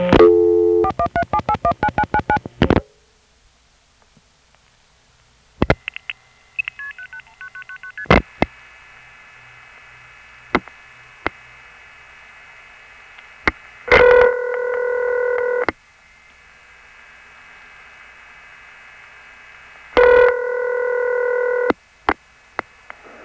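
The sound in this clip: Telephone call dialed through a crossbar 5 exchange via Forest Hills to Springfield, Massachusetts: a rapid burst of touch-tone dialing tones, then scattered clicks and a steady line tone broken by two louder bursts of layered tones.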